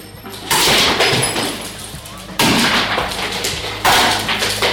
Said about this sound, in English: All right, we got we're all ready. Ready to go. Let's go smash some shit.